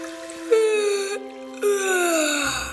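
A young man yawns at the breakfast table. The yawn is a drawn-out voiced sound that slides downward in pitch and comes in two long stretches, with no other sound around it.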